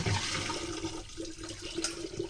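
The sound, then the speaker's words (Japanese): Water poured over rice in a colander stacked inside a bowl, then drained; a soft, steady rush and splash of flowing water that runs throughout at low volume. “こうザルとボウルを重ねてお水を注いで、まずは一回きれいなお水でお米を浸してからすぐに捨てちゃいます。”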